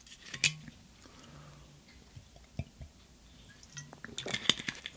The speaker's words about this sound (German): Und um das mal kurz sacken zu lassen, trinke ich kurz einen Schluck.